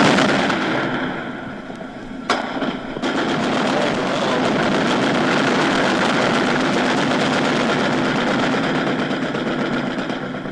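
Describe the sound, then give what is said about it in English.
Gunfire echoes through city streets during the 1967 Detroit unrest, a couple of sharp reports near the start standing out against a dense, continuous roar of noise. “And that's the sound you're hearing all over Detroit this evening. As the gun battles continued throughout the city”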